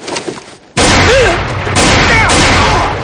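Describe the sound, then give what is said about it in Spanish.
Gunfire in a 2007 western film shootout as a gunman draws and fires on a group of men. A quiet opening gives way to a sudden loud burst of shots that continues steadily, with further surges partway through. “Rápidamente Charlie desenfunda sus armas y dispara a Bols y sus hombres.”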